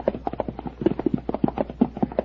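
Horses' hooves clip-clop as riders dismount and lead their mounts into stable stalls; many sharp, overlapping clops fall in a quick, steady patter throughout.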